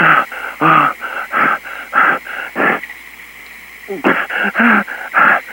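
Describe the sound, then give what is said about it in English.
Heavy, wheezy panting from someone out of breath: a run of rapid, loud breaths, a short pause, then another run of equally strong breaths, with no talk. “I'm out of breath.”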